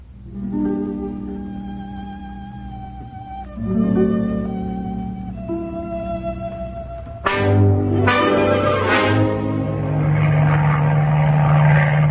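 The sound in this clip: A propeller airplane coming in to land, its engine droning in a buzzing, tone-rich hum that shifts pitch in steps and grows louder and rougher partway through, with no talking.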